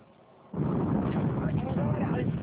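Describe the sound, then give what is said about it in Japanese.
An Iraqi army mortar is fired with a sudden heavy boom that breaks a quiet start, followed by a loud, sustained low rumbling roar that holds to the end. “大量に残されていたイラク軍の迫撃砲、このように弾の蓋を取り撃つのだという。”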